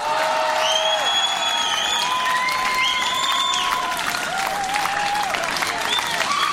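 A festival crowd at the Esprit Rock festival in L'Encloître gives an ovation for a band: dense, sustained clapping with high cheers and whistles rising above it.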